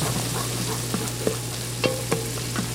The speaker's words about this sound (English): So right now, while the seitan is resting, I'm making its braising liquid.